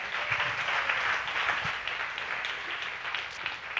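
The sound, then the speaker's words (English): A church audience applauding to welcome a speaker on Orphan Sunday, a steady, moderately quiet wash of clapping that is sustained throughout. “Give him a hand.”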